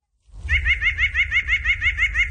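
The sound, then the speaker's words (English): A white-breasted nuthatch calls in a fast, even run of many nasal, laugh-like notes that starts abruptly after a moment of silence, over a faint low rumble. “this particular bird is the white-breasted nuthatch”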